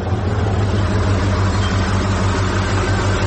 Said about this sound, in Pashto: یوه لارۍ خو راغله، همدا لارۍ ته به لاس ورکم.